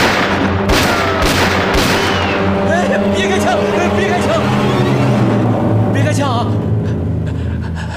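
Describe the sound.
Gunshots in a tense armed standoff. A few sharp, loud cracks come in quick succession near the start, then a dense rumbling wash of noise follows, with voices calling out over it.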